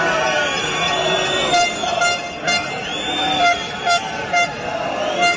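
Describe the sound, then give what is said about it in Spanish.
Car horns toot and honk again and again over a steady crowd din, with voices through it, at a street protest march in Vigo during a metal-industry strike. “Vamos con los sonidos de la manifestación que recorría las calles de Vigo esta mañana con motivo de la huelga del metal en la provincia.”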